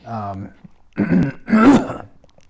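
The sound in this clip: Throat clearing and coughing from pumpkin seeds caught in the throat: a voiced, groaning rasp, then a few rough, noisy hacking bursts of moderate loudness.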